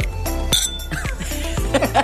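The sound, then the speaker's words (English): Glasses clink together in a toast with non-alcoholic spirit drinks during a cocktail class. A few bright, ringing clinks sound over steady background noise. “let's kick this off with a cheers of a non-alcoholic.”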